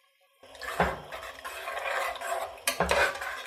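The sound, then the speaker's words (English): A spoon stirs salt into a pot of simmering liquid. Two distinct scraping strokes rise over a steady, soft bubbling hiss. “Stir it in.”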